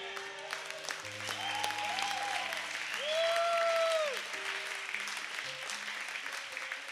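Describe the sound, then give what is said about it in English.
Audience applause during a church sermon: steady, dense clapping from a crowd that holds at an even loudness for several seconds, swelling slightly in the middle. “And while you're clapping, I gotta tell you”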